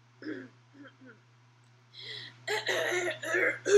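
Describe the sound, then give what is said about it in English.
Throat clearing: a few faint, rough little bursts, then louder, harsher raspy clearing toward the end. “Make sure that throat's clear. Yeah, it's clear. Clear the throat.”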